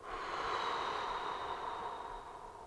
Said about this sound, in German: Tief einatmen. Atem anhalten. Und doppelt so lange ausatmen.